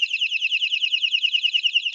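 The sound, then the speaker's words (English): A small alarm device sounds a rapid, high-pitched warbling tone, pulsing quickly and evenly for about two seconds with nothing else heard. “You have an alarm, which is, oh, where is it?”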